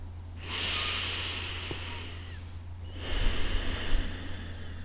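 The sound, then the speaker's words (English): Slow breathing through the nose: one long airy inhale followed by a long exhale, each a soft steady hiss lasting about two seconds, the second slightly louder and rougher, with no talk. “Inhale and exhale through your nose.”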